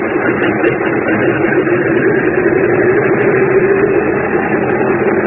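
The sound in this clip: A small aircraft's engine is pushed to full power on a runway while the brake pedal is held before takeoff. The loud, steady droning hum stays level throughout, with no voices.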